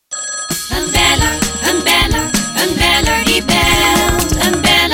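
A telephone rings for an incoming call, with loud, continuous bell-like tones over a dense, busy musical backing.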